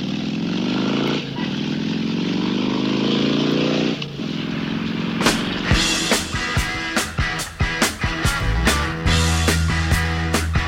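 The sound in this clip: A motorcycle engine roars in a steady, loud drone, then gives way to a run of sharp, rhythmic pulses layered over the continuing engine sound.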